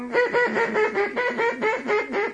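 A duck call blown as a comeback call, giving a rapid, evenly paced run of many nasal, raspy quacks, loud and alone with no voices.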